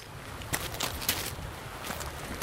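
Footsteps along a rocky hiking trail beside a rock outcrop in a Black Forest gorge: a few soft, gritty crunching steps at a low level over a steady outdoor hiss, with no talk.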